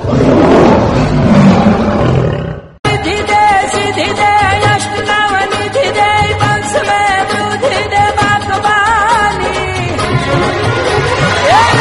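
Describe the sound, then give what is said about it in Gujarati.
A deep lion roar, presented as the lion of the goddess Mataji for Navratri, loud and rumbling for the first few seconds, then a sharp break into a sustained, harmonic tonal sound. “આજે radio હાટકેશમાં ખાસ પ્રસ્તુત કરવામાં આવી છે માતાજીનો સિંહ બોલે છે”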